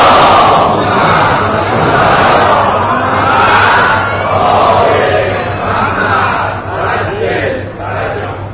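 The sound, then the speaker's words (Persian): An audience in a mosque during Ramadan recites salawat in unison. The massed voices are loud and sustained, and the recitation swells and eases in broad waves throughout. “انشاءالله برای اجابت این دعام یه صلوات ختم کنیم.”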